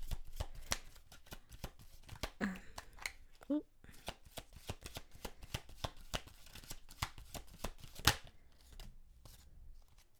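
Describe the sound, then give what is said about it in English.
Shuffling of a Wisdom of the Oracle card deck: many rapid, crisp riffling snaps and soft slaps run through the whole stretch, with one louder snap near the end. “The card that came out for how we got ourselves. This is the Wisdom of the Oracle deck that I'm using right now.”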